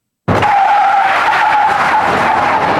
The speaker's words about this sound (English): That's Joe peeling out in the electric Hummer.